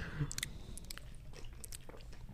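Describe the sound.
Crunchy chewing of a flavored snack, with quiet, scattered crisp bites and clicks over a low mouth rumble. No one talks.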